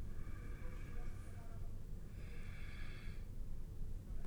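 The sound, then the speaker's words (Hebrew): Deep breathing during a stretching exercise, quiet and slow, with two long airy breaths separated by a short pause over a soft low background hum. “לנשום. עוד נשימה.”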